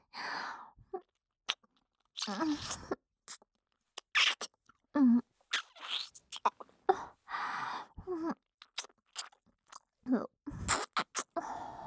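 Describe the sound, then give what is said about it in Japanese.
Wet ear-licking mouth sounds made during a full-body massage: many short, quiet smacking and slurping bursts in an irregular rhythm, separated by silent gaps. “こうしてお耳をなめながら、お客様の全身をマッサージさせていただきます。”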